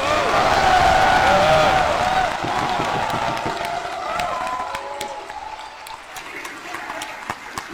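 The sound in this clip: Crowd cheering and applause after a speech closing with a patriotic salute to the Philippines, at a State of the Nation address for 2026. A loud roar of voices and clapping at first thins out to scattered claps toward the end.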